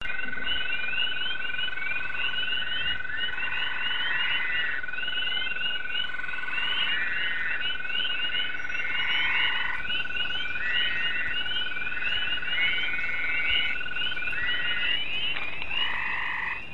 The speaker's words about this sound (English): If you guessed all frogs, you're right. Those were the chirps of spring peepers, the long trill of an American toad, the shorter trill of a gray tree frog, and the baby cry-like call of a fowler's toad.